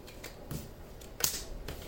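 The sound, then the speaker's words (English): A tarot card drawn from the deck: a few soft papery slides and light snaps, with the sharpest crisp flick near the middle, fairly quiet and without voices. “Let me take another card.”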